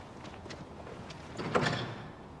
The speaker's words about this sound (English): She pushes open a heavy door and looks inside. Finding no one, she runs along the length of the outbuilding and tries another door.